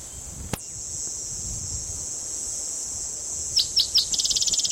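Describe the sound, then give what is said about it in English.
Cicadas drone in a steady, high-pitched buzz throughout, a sharp click sounds early, and the insects break into rapid, pulsing chirps toward the end. “A lot of cicadas in the background.”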